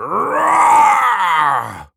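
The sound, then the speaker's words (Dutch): A voice imitates a dinosaur roar: one long, loud, growling groan lasting about two seconds, its pitch sagging toward the end before it cuts off. “Maar dat ging over toen ik heel hard probeerde te brullen als een dinosaurus.”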